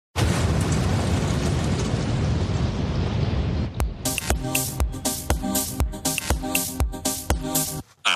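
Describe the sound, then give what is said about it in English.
An explosion sound effect: a loud, sustained roaring blast that fills the first few seconds, then gives way to rhythmic music with sharp, regular beats. “And now I have to explode.”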